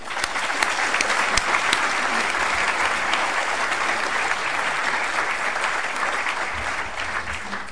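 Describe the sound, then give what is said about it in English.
Sustained applause from a lecture audience at the London School of Economics welcoming a speaker, a dense, even wash of clapping that holds steady at a loud level throughout with no talk over it. “Please join with me in giving him a very, very warm welcome.”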